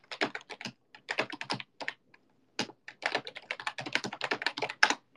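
Computer keyboard typing as someone writes down a list of names: many rapid, crisp keystrokes in uneven bursts separated by short pauses, with no talking.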